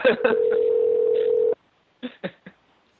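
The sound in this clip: A telephone dial tone hums steadily for about a second and a half while a call is placed, with a few clicks at its start, then three short bursts after a brief silence.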